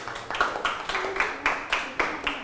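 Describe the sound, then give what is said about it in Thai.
A classroom claps for a student in a steady, even beat of many claps, moderately loud and without talk. “ได้ปรบมือให้เพื่อนเลยนะครับ”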